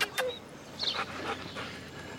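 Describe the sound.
A dog whimpering and panting: a few short, high whines mixed with breathy pants, fairly quiet.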